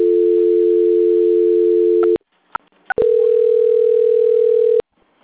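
Telephone call transfer tone as a call is passed to a quality-control department: a steady low tone held for about two seconds, a few soft clicks, then the same tone again for nearly two seconds before cutting off.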